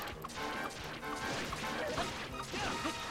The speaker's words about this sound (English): Swirl attack, back off, go in. Swing, swing, swing, swing. I mean, you can hear how often I'm hitting him.